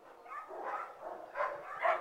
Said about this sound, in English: We push open a heavy door from the lobby and walk into the kennel room. The cacophony of barking, audible from the lobby, immediately grows louder. It's a noisy room.